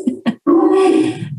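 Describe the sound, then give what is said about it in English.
A dog in the room gives two short yelps, then a longer tonal howling whine that tapers off, loud and with no talk over it. “Sorry about the dog.”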